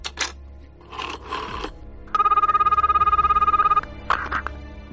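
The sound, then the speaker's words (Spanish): A telephone busy signal sounds over the line, a rapidly pulsing electronic buzz lasting under two seconds, with brief clicks and handling noises before and after it. “La línea está ocupada.”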